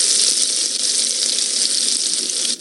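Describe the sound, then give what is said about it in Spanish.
Garlic butter sizzling in heated olive and vegetable oil, a steady, bright hiss with a fine crackling texture that stays even and unbroken throughout. “ya calenté el aceite de oliva y el aceite vegetal y ya nada más vamos a agregarle la cucharada de la mantequilla de ajo que preparamos. Y lo esparcimos.”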